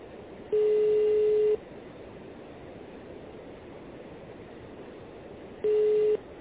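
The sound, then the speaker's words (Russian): Telephone busy tone after a dropped call: two steady mid-pitched beeps, the first about a second long and the second shorter, separated by a long stretch of hissing line noise. “Связь прервалась. Sorry, the connection is lost.”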